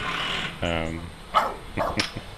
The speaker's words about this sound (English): must be smoko time. He always barks at smoko time.